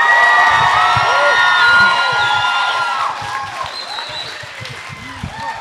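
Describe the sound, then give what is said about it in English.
Applause and cheering come from one table of an audience: loud clapping mixed with whoops and shouting voices that ease off somewhat partway through. “I think that was just this table. Right? All that applause is just that one table.”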